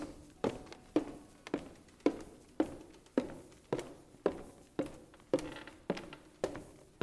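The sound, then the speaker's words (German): Footsteps going down a wooden staircase inside a house, a long, even series of quiet, dull thumps at a regular walking pace, each step with a short decaying tail. “ja eine Holztreppe, deswegen äh, knatscht die auch ein bisschen ab und zu.”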